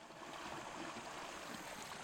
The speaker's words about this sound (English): The water running through Sunday Creek rambles without a hint of wildlife.